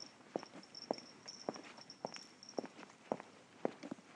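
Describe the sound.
Footsteps walk on street pavement close to midnight: eight quiet, crisp steps fall in an even, regular stride.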